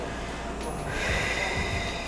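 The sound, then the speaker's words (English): A deep breath let out during a guided relaxation exercise: a soft, breathy rush that swells slightly partway through, over a steady background hiss. “Take a deep breath in, hold it, and let it out.”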